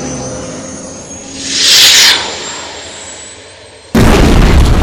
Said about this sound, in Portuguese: Um míssil atinge a boca do túnel explodir na rota onde você estava indo.